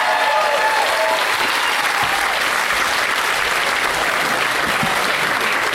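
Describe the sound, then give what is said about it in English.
An audience applauds a guest with dense, steady clapping that stays loud and unbroken from start to finish. “All right. Let's hear it for Bri-Bri-8, everybody. Good luck.”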